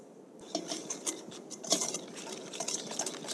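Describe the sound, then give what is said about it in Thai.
A whisk beats a mixture in a bowl while salt is added, producing quick, irregular scraping clinks and light tapping that start after a brief quiet moment and continue faintly throughout. “เดี๋ยวขอตะกร้อหน่อยค่ะอาจารย์นะคะแล้วเราก็จะเริ่มนะคะเติมส่วนที่เป็นเกลือลงไปได้เลยนะคะ”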